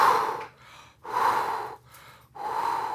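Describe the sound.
Deep breaths taken during a breathing exercise: three loud, drawn breaths in a slow, even rhythm, each separated by quieter, softer breathing.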